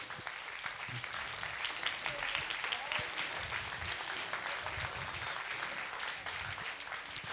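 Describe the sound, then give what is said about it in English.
A church audience gives applause for the kids' camp leaders: steady, dense clapping from many hands holds at an even, fairly faint level throughout. “if you're a leader or something, why don't you stand to your feet? And I just want to, let's give these people a round of applause”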